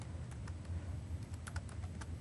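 Fingers type a web address on a computer keyboard: quiet, quick, irregular keystroke clicks in a rapid stream, with no talking.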